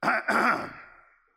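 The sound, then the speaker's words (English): A voice clears its throat in one short, gruff rasp broken into two quick pushes, then trailing off into silence. “it's almost like God clears his throat”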